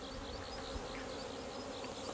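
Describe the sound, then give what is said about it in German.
Honeybee drones flying outside the hive during a drone flight make a steady, dense buzzing hum that stays even and unbroken throughout, with no voices. “Siehst du die ganzen Drohnen? Da sind ungefähr bald 30, 40 Drohnen draußen hier. Das bedeutet, dass der Drohnenflug da ist.”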